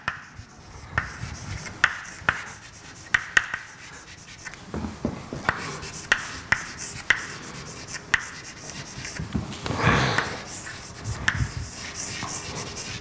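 Writing on a board during a lecture: many short, faint scratching and tapping strokes come in irregular bursts, with no talk over them.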